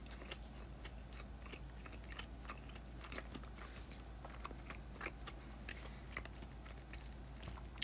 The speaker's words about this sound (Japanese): 咀嚼音がしますんで、すみません。